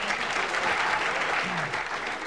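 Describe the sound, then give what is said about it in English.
Steady audience applause at a panel game, a dense, even wash of clapping holding at a constant level throughout without pauses. “Thank you for applauding my wisdom.”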